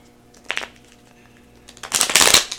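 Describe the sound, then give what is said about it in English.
Cards are shuffled and drawn from a deck of magic cards: a brief papery flick, a pause, then a louder, dense riffling burst near the end. “I'm going to go ahead and pull one of these making magic cards. I might pull three. Let's see what we get.”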